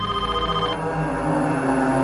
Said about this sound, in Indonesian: keheningan kami terpecah oleh suara dering telepon yang terdengar dari dalam gedung jurusanku.